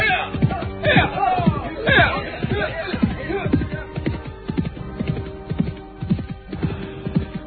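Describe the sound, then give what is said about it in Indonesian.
Hoofbeats of a horse being ridden along the way toward the village of Ganding: a steady, regular clip-clop of many strikes. The hooves stand out clearly, with some louder, rougher sounds in the first few seconds. “Sementara itu, Telik Sandi yang ditugaskan Kidarpana untuk melihat suasana di desa Kancipuri tengah berkuda ke desa Ganding.”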